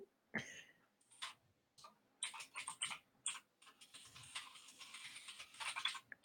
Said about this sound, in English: I got to type it out to make sure I'm like saying it right.